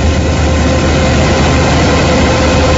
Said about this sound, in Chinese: 走进山西大同市云冈区西韩岭乡泰善村，连片玉米田里满目金黄，收割机正开足马力作业，转运车辆紧随其后，将刚收获的玉米及时运往收储点。